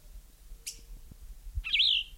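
Bird calls from a bird sitting on its nest: a brief high chirp, then a longer, louder warbling call near the end, over a faint low rumble.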